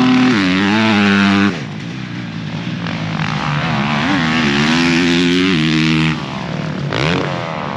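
A 450 motocross race bike ridden on a dirt track, its loud, buzzing engine holding a strong tone as the revs rise and fall throughout, with no talk over it.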